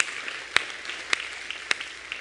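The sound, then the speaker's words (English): A church audience applauds during a morning service, a faint, steady wash of clapping with a few sharper claps popping out of it. “Can you guys give a huge hand for everyone joining us here this morning?”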